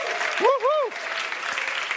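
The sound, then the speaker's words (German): Audience applause at a church service: steady clapping runs through the whole clip, with a brief whooping voice that rises and falls twice near the start. “Also, geben wir mal einen kräftigen Applaus für unsere Glory-Häuser.”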